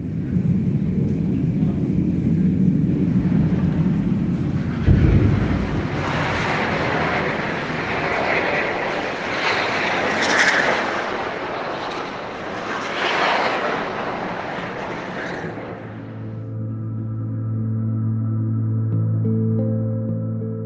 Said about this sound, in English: every few hours, she can hear the sounds of bombs dropping and Israeli aircraft overhead. She sent me some of these recordings from her apartment.